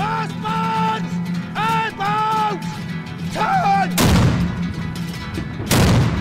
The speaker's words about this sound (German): In wenigen Stunden wurden 15.000 Kugeln und Granaten abgeschossen.